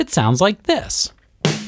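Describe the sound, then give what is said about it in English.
A snare drum from a drum set is struck once with its metal snare wires engaged, giving a sharp crack with a scratchy, raspy buzzing tail. The hit comes right after a person speaks. “It usually sits next to the hi-hat and has these metal wires underneath the drum called snares. Snares? Yep, snares. They make the drum have that scratchy, raspy type of sound.”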